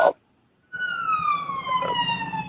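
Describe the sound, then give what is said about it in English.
An emergency vehicle siren wails outside on a city street in New York. It holds a steady, sustained tone whose pitch drifts slowly downward, with a low background rumble underneath. “I hear a siren or something there. That's just my New York location is picking up in the background.”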